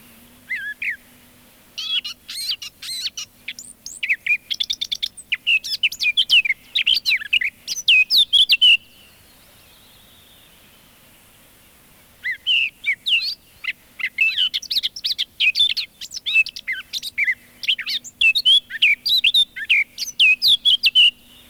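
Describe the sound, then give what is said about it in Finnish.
Eurasian blackcap song: rapid, bright warbling phrases in two long bursts split by a pause of a few seconds, with a faint low steady hum beneath. “Mustapää Kerttu.”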